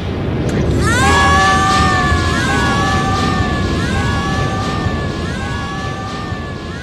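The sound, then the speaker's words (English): The spaceship Vanguard explodes and breaks apart in an audio drama effect: a loud, sustained roar of noise runs throughout, with warbling electronic tones that swoop upward and then repeat in wavering layers. “The viewport! Look, Vanguard's exploded! And now you have lost all hope. The walls! She's breaking up!”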